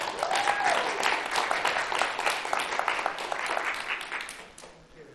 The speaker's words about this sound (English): Can we clap for that great-great-grandbaby?